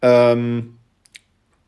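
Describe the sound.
Back and pause buttons pressed together on a Clear Reader Plus reader device make two quick, faint clicks in close succession. They come right after a brief stretch of a voice, and silence follows.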